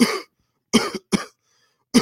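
A man's morning cough: four short, husky hacks with gaps between them, the second trailing into a brief extra catch. The coughs are moderately loud and stand alone, with no talk.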